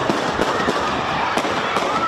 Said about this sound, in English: This reporter ran for cover. You can hear shot after shot after shot.